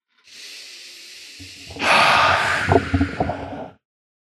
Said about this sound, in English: So drop down into your body and just take a few big, easy breaths.